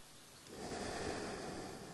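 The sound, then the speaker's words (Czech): A deep, slow breath taken during a guided relaxation exercise: a soft, breathy rush of air that swells after a quiet start and holds steady to the end, with no talking. “A hluboký nádech a dlouhý výdech. Deeply inhale and long exhale.”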